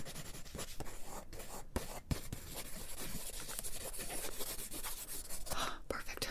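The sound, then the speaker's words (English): Continuous scratchy strokes of drawing on paper while sketching a face portrait, with quick, steady rasping marks at low volume and brief pauses between strokes. “I'm gonna draw your chin. I'm gonna draw your cheeks and your eyelashes, your eyebrows. Quizzical, quizzical. Very good, very good. And I'm gonna draw your hair.”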